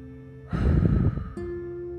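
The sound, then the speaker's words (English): A single deep exhale during a guided breathing exercise: a long, breathy rush of air lasting under a second. It sits over a steady, low sustained tone, and no one speaks. “Now let's exhale.”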